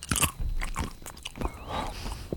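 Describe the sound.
Someone chews a fish-flavoured jelly bean, with a few crisp, crunchy bites followed by wet, irregular chewing and no talking.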